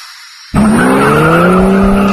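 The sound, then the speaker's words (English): Race cars skid at a raceway, a loud, sustained squeal of tires over car noise. It starts abruptly after a short, quieter lead-in and holds steady to the end. “Don't miss all the racing action this weekend at Skelton Raceway in Sykeston.”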